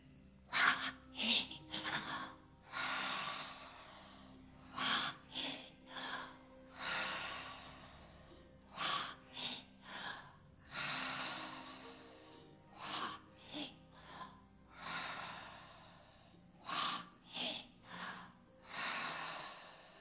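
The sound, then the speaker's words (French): Person breathing in and out during a guided breathing exercise, with many quiet, breathy noisy bursts in an uneven rhythm across the whole stretch. “et inspirez. Expirez, préparez-vous. Recommencez.”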